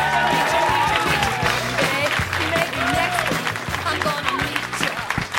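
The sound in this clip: Audience applause and cheering for a comedian being welcomed to the stage at a stand-up show: loud, continuous clapping with scattered shouts and whoops rising through it, easing slightly near the end.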